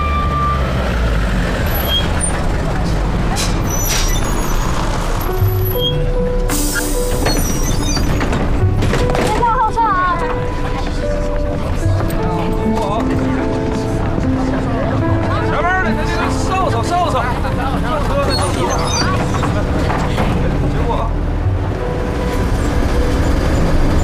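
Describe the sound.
A bus pulls away from a stop and drives on, its engine rumbling low and steady throughout while people talk over it.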